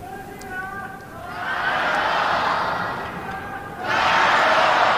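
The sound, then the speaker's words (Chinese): A tennis crowd cheers on a young Chinese player. A commentator's voice comes first, then a loud, sustained roar of cheering that eases briefly and surges again. “现场的观众也是在给中国的年轻小将孙欣然啊加油鼓劲儿。”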